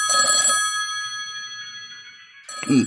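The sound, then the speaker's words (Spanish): A telephone rings in two bursts separated by a pause, each a bright, metallic bell tone that lingers faintly between rings. “Deberán excusarme un momento. Debo atender esta llamada. Regreso enseguida.”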